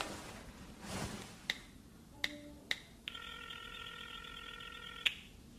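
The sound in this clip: A telephone being dialled, heard faintly: a few sharp button clicks and short beeps, then a steady electronic tone lasting about two seconds. Soft background hiss runs underneath.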